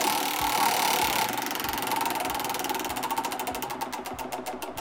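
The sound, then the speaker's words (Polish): A game show prize wheel spins with a loud, dense clatter of ratcheting ticks. The ticks gradually slow and spread apart toward the end, over a low rumbling undertone. No one speaks. “proszę koło wprawić w ruch”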